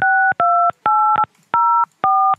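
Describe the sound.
Telephone keypad tones entering an access code for a conference call line: a quick series of loud, clean two-pitch beeps, each about a third of a second long, separated by short silent gaps.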